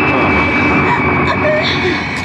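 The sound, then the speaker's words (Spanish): Drone of a small airplane engine in flight during a near crash and recovery, a loud, steady, unbroken roar with a thin high whine running through it for the whole stretch. “En una fracción de segundo, Calimán controla el timón, tomando el mando del pequeño avión y logrando estabilizarlo cuando estaban a punto de estrellarse.”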